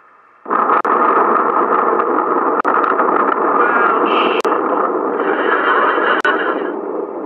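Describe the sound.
Explosion sound effect for the post-apocalyptic sitcom The Dregs: a loud roar that bursts in suddenly, then holds as a steady, rushing wall of noise broken by a few sharp clicks.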